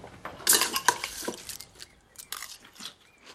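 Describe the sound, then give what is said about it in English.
Quiet clinks and scrapes of a spoon against a bowl while preparing honey nut cereal with 2% milk, a scatter of irregular light taps and rattles, soft and intermittent with no talk. “And I'm making honey nut crunchies with 2% milk.”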